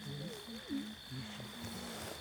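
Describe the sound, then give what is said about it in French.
Cricket chirping as a steady, high-pitched trill that runs throughout, with lower warbling sounds over it. “Et c'est quoi ça, c'est un grillon comment?”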